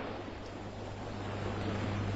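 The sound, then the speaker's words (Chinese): Sea water surging against rocks at night, heard as a continuous, quiet rushing wash with low rumble and no distinct separate crashes. “潮水不停地撞击着礁石，像在悲泣，也像在怒吼。”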